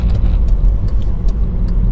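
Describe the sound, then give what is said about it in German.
Low, steady engine rumble from inside a Yeti car while it is being driven, a constant dense drone with no clear changes and no talk. “Ich fahre gerade den Yeti.”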